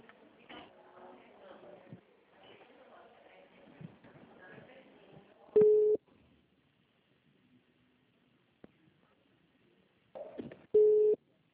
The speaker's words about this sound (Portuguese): Só um minutinho que eu vou ligar pra ela, ver se eu consigo incluir.